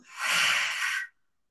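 A deep breath is let out after being held during a guided breathing exercise. One long, airy, breathy exhale swells quickly, holds steady for about a second, then stops abruptly.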